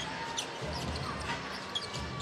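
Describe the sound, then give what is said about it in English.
A basketball dribbled on the court during an NBA game between the Raptors and Hornets: a few dull, low bounces thump over a steady background din of the arena. “Van Vliet, top of the key to Siakam. On the dribble, into the lane.”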